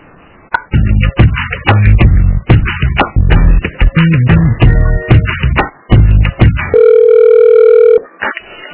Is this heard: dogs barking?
no